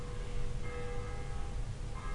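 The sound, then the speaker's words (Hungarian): Church bells ring with sustained, faint metallic tones droning over a low rumbling background, the ringing renewed by fresh strikes. “mert most ebben már ugye harangoznak is”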